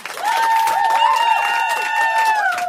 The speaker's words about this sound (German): Applaus, hey.